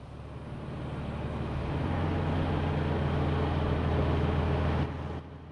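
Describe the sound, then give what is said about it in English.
A far-off, old-fashioned cabless farm tractor approaching: a low, steady engine drone with a humming rumble that slowly grows louder, then drops away abruptly near the end. “A far-off tractor breaks the silence.”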